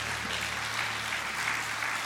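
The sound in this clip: A church audience claps their hands in steady, dense applause, with many hands striking together continuously at an even loudness.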